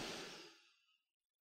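A single deep breath taken during a guided breathing exercise. It is broad, airy and unvoiced, starts strong and fades away over about a second, with no talk over it.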